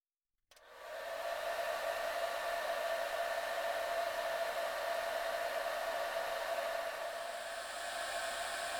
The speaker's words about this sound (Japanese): 髪の毛、乾かしていきますからね。